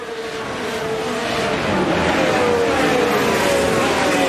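Formula One race cars on a damp track in light drizzle: a continuous, loud engine roar with high whining tones that drift slightly downward in pitch.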